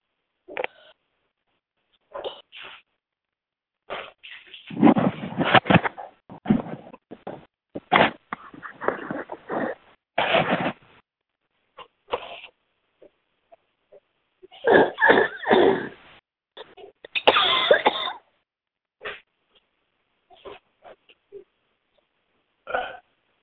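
Heavy breathing and sniffing, many loud, irregular rasping bursts of varying length separated by short silences, with no talk.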